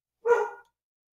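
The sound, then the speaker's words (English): A dog lets out a single short, clear bark, moderately loud and alone against silence. “I think the doggo is with you, too. Tell me somebody's here or something”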